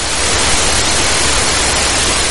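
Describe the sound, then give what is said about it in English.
Hissing noise recorded from a cell killed with a drug: a continuous, flat, static-like rush spread across the range, holding an even level throughout with no pulses, tones or voices. “the sound stopped and it was replaced by another type of sound, a hissing sound, which is not a sound relating to life. It's the sound of death, if you like.”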